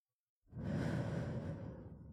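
A single deep inhaled breath, a steady airy rush lasting nearly two seconds that starts abruptly and holds at an even, moderately loud level with no voices.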